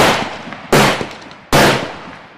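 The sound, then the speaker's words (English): Gunshots fired near a camp around midnight: a few sharp, loud bangs spaced under a second apart, each followed by a long ringing decay that slowly fades before the next report. “One night, near midnight, you hear several guns fired west of camp. Then suddenly more shots are fired east of camp.”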